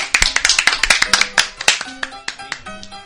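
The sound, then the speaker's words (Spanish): Studio audience applause greets a guest's entrance with a quick, dense run of many sharp overlapping claps. It stays fairly loud and steady, thinning slightly toward the end. “Fuerte aplauso para el maestro.”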